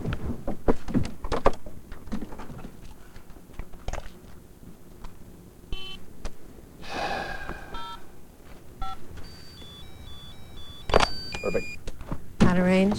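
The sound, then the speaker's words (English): Clicks and soft thunks of an SUV passenger door opening and a cell phone being pulled from the glove compartment, with a few short electronic tones and scattered handling taps. “Walking to the passenger side, the man opens the door and pulls out a cell phone from the glove compartment.”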